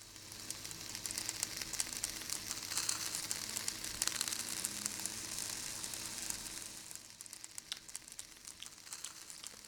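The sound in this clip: Fish cooking in an oven gives a faint, steady sizzle with fine crackling throughout, a soft hiss that thins out toward the end with no voices.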